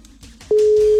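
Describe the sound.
Telephone ringback tone heard while placing a call: one steady, even tone starts about halfway through and holds, fairly loud, to the end after a quiet stretch.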